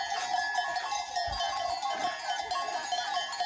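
A flock of livestock wearing bells walks home along a drove road. Many bells jangle and clank steadily without pause, a continuous bright metallic clatter at an even loudness.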